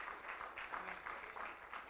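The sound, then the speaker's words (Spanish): A church audience applauds, faint but steady, the clapping forming a dense, pulsing wash of sound throughout with no clear pauses. “Denle el aplauso al Señor.”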